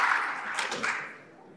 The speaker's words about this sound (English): All right, ladies and gentlemen, can we give a round of applause to our 14th panel of the event?